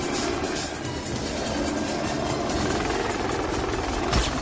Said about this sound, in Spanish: El helicóptero se aleja y dos militares corren hacia James.